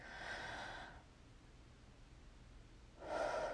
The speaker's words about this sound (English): that stethoscope is really cold. Breathe in. Again.